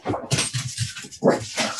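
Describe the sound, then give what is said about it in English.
A dog barks during a church service, giving a few short, fairly quiet barks and whimpery yelps in uneven bursts. “sorry, I've got a problem today that I don't normally have at church. It's a barking dog.”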